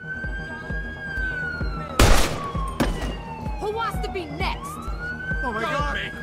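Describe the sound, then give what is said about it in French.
A police siren sounds from a crime video game, holding a high steady tone beneath English dialogue, with a couple of sharp bangs like gunshots near the middle. “Généralement, il y a le bruit de la police, des bruits de flingues.”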